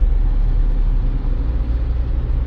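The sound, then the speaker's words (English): Steady low engine rumble and road noise come from a car driving through Houston city traffic. The sound is constant and fairly loud, with no distinct separate events. “as I navigate through the perils of Houston traffic”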